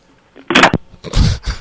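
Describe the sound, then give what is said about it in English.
Telephone handset picked up and slammed down, heard as a few sharp, clattering knocks in separate bursts, with the heaviest impacts near the middle and end and no talk over them. “she's just picking up and slamming down the phone”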